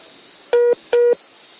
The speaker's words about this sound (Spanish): le entró una llamada. Le entra una llamada y apenas le entra la llamada se corta la comunicación.